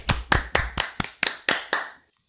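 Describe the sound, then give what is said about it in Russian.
Hand claps congratulating someone: eight sharp, evenly spaced claps in a steady rhythm, each short and crisp, stopping abruptly into silence. “Поздравляем Артема, похлопаем ему.”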